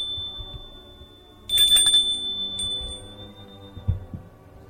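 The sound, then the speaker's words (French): A doorbell rings once: a sudden bright chime with a clear high ringing tone that lingers and slowly fades over a couple of seconds against a quiet, low background. “Il s'arrête. On sonne.”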